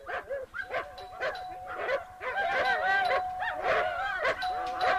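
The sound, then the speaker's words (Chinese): Two large German shepherd guard dogs bark fiercely at the gate of a villa, with many overlapping barks and yelps in a loud, uneven, nearly continuous stream. “狗叫得这么凶，门铃这么响”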